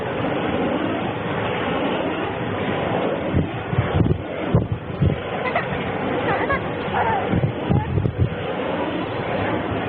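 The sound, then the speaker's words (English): Wind recorded in a cemetery late at night, a continuous rushing, rumbling roar with uneven gusting swells and dips throughout. “This is just straight stuff recorded in a cemetery late at night. Yeah, you can hear the wind.”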